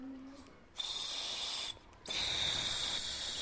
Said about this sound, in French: C'est le bruit d'un bouchon de stylo dans lequel on souffle.